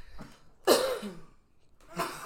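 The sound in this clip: Coughing, a few harsh bursts: a short one at the start, the loudest and longest in the middle, and another rough burst near the end, separated by quiet gaps.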